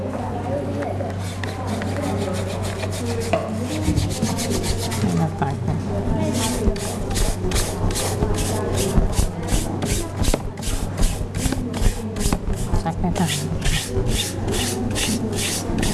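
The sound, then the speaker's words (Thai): Scrubbing with sprinkled detergent powder makes steady, rhythmic rasping strokes that grow denser and more regular in the second half, over a low constant hum while a woman talks. “โรยจากข้างบนด้วยตอนนี้เราจะใช้ผงซักฟอกนะคะเลยลูก”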